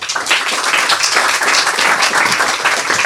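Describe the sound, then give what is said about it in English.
Audience applause welcomes the next author at a storytelling reading: dense, steady clapping from many hands, loud and continuous throughout, with no talk over it. “Let's hear some welcome sounds for our next author, Beatrice Altieri.”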